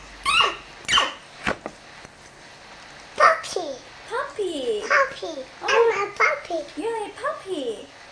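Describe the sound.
A young child imitates a puppy's bark with many short, high yelping cries in an uneven rhythm, each bark-like burst falling in pitch, separated by brief pauses.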